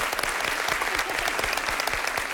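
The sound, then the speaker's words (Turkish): Dense, steady applause from an audience on a quiz show, many hands clapping at once in a continuous bright wash that holds an even loudness throughout. “Alkışlıyorum.”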